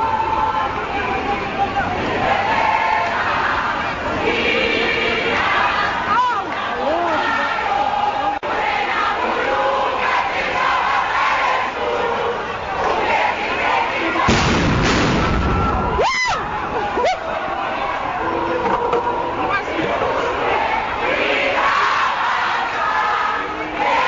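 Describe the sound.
Student protesters chant as a dense, loud crowd at a parliamentary precinct while police use tear gas and stun grenades. The roar of voices is continuous, and sharp bursts break through partway.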